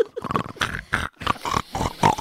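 A pig grunts and oinks in a rapid, uneven series of short nasal snorts, fairly loud and continuous throughout.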